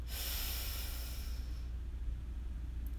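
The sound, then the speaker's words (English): A deep breath drawn in through the nose, a soft, steady, airy inhale that fades out after about a second and leaves quiet behind. “let's take a deep breath in through our nose, hold for a moment, and exhale with a loud sigh. So breathe in”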